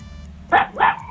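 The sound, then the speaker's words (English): A dog barks twice during a trivia quiz, two sharp, loud barks in quick succession with no talk over them. “The dog's trying to answer.”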